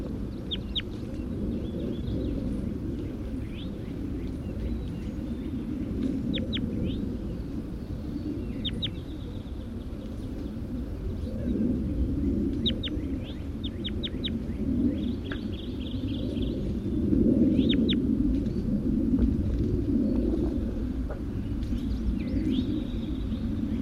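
Bird calls ring out as many short, high chirps in scattered bursts, sitting faintly above a steady low rumbling background that runs throughout.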